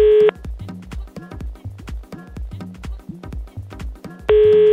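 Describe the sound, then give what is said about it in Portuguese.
A telephone ringing tone sounds as a call is placed. Two short steady tone bursts come at the start and end, with rhythmic music with a thumping bass beat in between. “E aí, vamos ligar pro Sérgio Henrique.”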